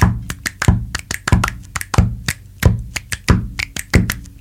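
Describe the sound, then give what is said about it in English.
Straightforward drum beat with a kick landing on every downbeat, steady and evenly spaced, with sharper, lighter hits falling between the kicks. “So that's a more straightforward beat. It's just boom, boom, boom, boom.”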